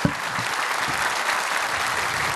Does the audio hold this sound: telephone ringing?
no